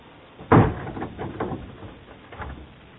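A door is shut with one firm, muffled thud, then a few fainter knocks and rattles follow before the sound settles.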